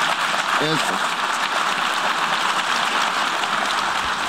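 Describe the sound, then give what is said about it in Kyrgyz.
Diplomats applauding in the UN General Assembly hall after a vote result is announced: a sustained, even rattle of many hands clapping, with a brief voice fragment near the start. “Добуш берүүнүн жыйынтыгы жарыяланганда залдагы дипломаттар бир топко чейин кол чаап турушту.”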